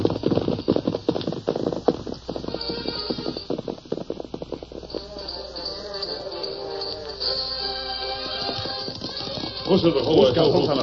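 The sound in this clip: Hoofbeats of two horses, Scout and Silver, riding off: rapid, rhythmic clip-clop strikes, strongest in the first half, continuing more faintly beneath voices and other sound later on.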